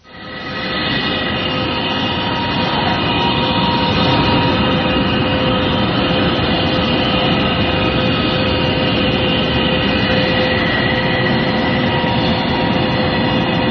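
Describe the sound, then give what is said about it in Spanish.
A mysterious low hum recorded in Canada drones on as a loud, steady metallic roar like a passing train. It holds constant rumbling noise with faint sustained tones throughout and no voices. “lo mejor para saber a qué se parece y con qué se puede comparar ese enigmático zumbido en Canadá es escucharlo”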